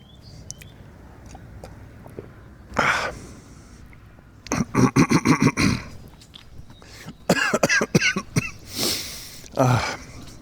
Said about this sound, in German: Entschuldigung, jetzt habe ich mich verschluckt.